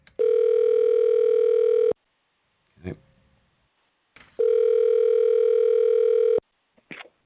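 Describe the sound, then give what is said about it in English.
Telephone tone while placing a call: two long, steady, buzzy tones, each about two seconds, separated by a pause containing brief clicks and rustles. “Let me dial it.”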